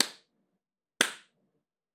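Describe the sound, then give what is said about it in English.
A voice imitates spanking slaps with sharp, clap-like smacks about a second apart. There are two full hits and a third cut off at the end, with silence between them. “if there were like multiple people getting spanked, it was like, it sounded almost like a round of applause.”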